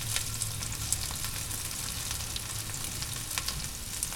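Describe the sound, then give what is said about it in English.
Diced onions fry in peanut oil in a pan with a continuous, hissing sizzle and frequent small crackling pops. The sound stays steady and even throughout, with no talking. “the second lot of onions that I diced up, getting added to the pan now, as you can tell. Oh, yes. Oh, fantastic. Peanut oil and onions.”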